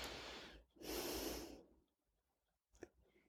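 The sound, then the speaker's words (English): Slow, deep breathing during a guided relaxation exercise: a soft inhale, a brief pause, then a longer, fuller exhale, followed by quiet and a short sniff. “Now send your breath towards your belly. Place your hand there as you breathe deeply.”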